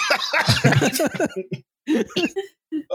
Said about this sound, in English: Oh, I got soy sauce in my throat, dude. That does not feel good.